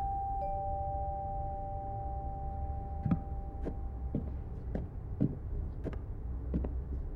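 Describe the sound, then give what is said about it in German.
A doorbell rings at a house in the evening, a steady buzzing tone for about three seconds, followed by a few soft, irregular thuds. “Wir klingeln einfach.”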